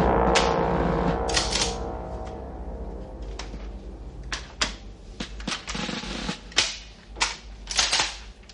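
Machine-gun fire in a trailer: many sharp, cracking shots in irregular bursts and single reports, growing louder and more spaced out toward the end.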